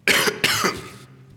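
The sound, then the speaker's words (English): Two harsh, raspy coughs in quick succession from someone with something caught in the throat in the morning. The second cough trails off more softly. “Sorry, I got something in my throat this morning.”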